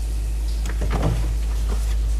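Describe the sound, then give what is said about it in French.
Rummaging through drawers and a wardrobe in an apartment's walk-in closet: a few soft knocks, scrapes and rustles of drawers and cupboard doors over a steady low hum, with no voices. “Elle fouille dans les tiroirs. Elle s'accroupit pour fouiller une armoire.”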